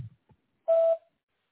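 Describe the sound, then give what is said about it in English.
A voicemail beep sounds once: a single steady, mid-pitched electronic tone lasting about a quarter of a second, clean and alone, with only faint clicks around it. “At the tone, leave a message and I'll return the call.”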